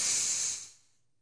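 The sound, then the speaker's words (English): A single deep breath comes as one loud, airy hiss that lasts under a second and then fades out into silence, with no voices. “1, 2, 3, deep breath in.”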